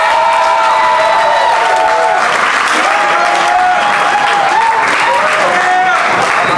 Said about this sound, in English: Round of applause for Alex Rios, everyone!